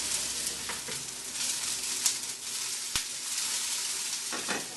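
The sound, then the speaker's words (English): Onions sizzling as they fry lightly in olive oil until golden and transparent: a steady, loud, even sizzle with a few sharp pops and crackles on top, no voices. “So I've lightly fried the onions till they're transparent and golden brown.”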